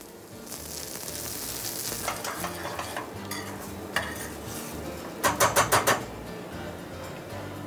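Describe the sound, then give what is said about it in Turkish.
Sizzling in a pan as water is added to cream and couscous: a steady frying hiss with stirring scrapes, then five sharp metallic taps of a utensil against the pan near the end. “Şimdi biraz içerisine krema. Bir kaşık kadar yeterli. Ve içerisine bir miktar su ekliyorum.”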